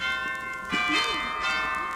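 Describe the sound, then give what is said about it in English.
Doorbell ringing at a cottage door, a chiming tone with sustained, shimmering overtones that swell slightly partway through, fairly faint and alone. “I walked up to the cottage, rang the bell.”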